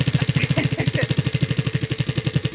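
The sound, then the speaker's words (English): A prize wheel spinning, its clicker giving a fast, steady run of many evenly spaced ticks at moderate loudness, with no talk over it. “All right, we're going to spin the wheel.”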